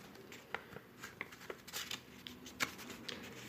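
Faint papery crackling as a rolled paper slip is unrolled, a run of small dry crinkles and ticks scattered unevenly over a quiet background, with no talking.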